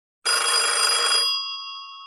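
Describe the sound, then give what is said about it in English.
A home telephone bell rings: one loud, continuous metallic ring of about a second, then the bell tone lingers and slowly fades. “And the phone rang. So I picked it up.”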